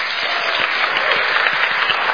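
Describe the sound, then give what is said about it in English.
A game show studio audience gives itself a round of applause, dense and loud with continuous clapping at an even level from start to finish. “You have been a terrific audience, so I want you to give yourself a round of applause.”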